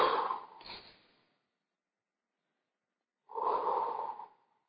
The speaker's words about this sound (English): Now just take a couple of deep breaths.